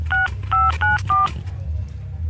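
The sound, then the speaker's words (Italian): Four touch-tone keypad beeps as a telephone number is dialed, each a short steady two-tone note with brief gaps, over a low continuous hum that lingers after the last tone. “Procediamo con la telefonata. Procediamo, facciamo il numero come al solito.”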